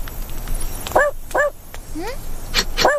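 A dog barks in a few short, high, yappy bursts, with a thin rising whine between them.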